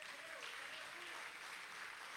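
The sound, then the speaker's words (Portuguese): Continuous applause from a church audience, a dense, steady patter of many hands clapping, fairly faint and even throughout. “Vocês podem aplaudir ao Senhor?”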